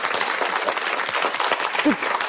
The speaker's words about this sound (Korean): 박수 한번 주세요.